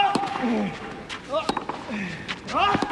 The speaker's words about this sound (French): Les deux hommes sont au fond du terrain, revers sur revers. Ça frappe très fort.